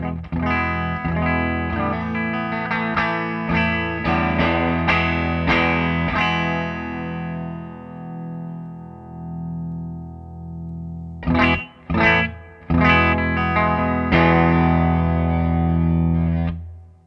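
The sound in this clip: Dry electric guitar on a split pickup plays through an amp with no pedal engaged. Quick picked notes and chords run steadily for several seconds, then a chord is left to ring, then a few sharp strums and more chords follow, with no voices.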